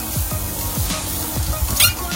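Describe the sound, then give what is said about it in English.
A steak searing on a hot grill, fat crackling as it cooks. The sizzle is loud, dense and continuous throughout, with small shifts in texture as the meat is turned. “Give me a grab, give me a flip. Nice marks. Nice marks. You can see some searing there on the fat. Beautiful. Give those a turn.”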